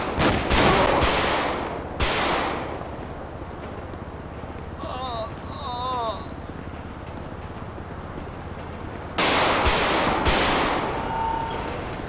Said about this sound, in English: Oh shoot, shot fired. He's hit. He's not down yet. Shot him in his face, he's still not down.